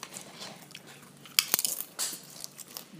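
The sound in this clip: Crisp crunching bites into an oil-free snack made by microwaving a whole sheet until crispy like nachos: a few sharp, brittle crunches clustered mid-clip, then softer chewing crackles, with no talking.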